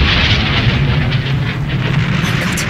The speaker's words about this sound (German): Was war das für ein Knall? Das muss das defekte Ventil gewesen sein. Hoffentlich hat es den Kessel nicht zerrissen.